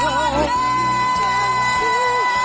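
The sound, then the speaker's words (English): A church audience cheers and makes noise: loud, sustained whoops, yells and shouts with wavering cries that rise and fall over a continuous crowd roar. “If you are excited, make some noise.”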